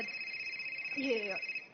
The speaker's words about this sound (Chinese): 我看一下，不好意思啊，我接个电话啊。